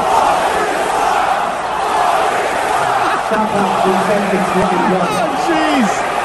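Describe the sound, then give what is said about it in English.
At a sports stadium, a crowd of tens of thousands chants in unison, a loud, dense roar of massed voices in a sustained rhythmic chant that fills the whole stretch. “That's some pretty good tens of thousands of people chanting Boston sucks.”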